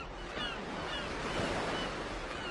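Sea waves wash in a steady, unbroken roar of surf, a dense rushing hiss that holds at an even loudness from start to end with no clear single breakers standing out.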